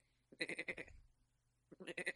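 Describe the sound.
A human voice imitates a goat bleating with two wavering, pulsing cries. A pause separates them, and both are fairly quiet.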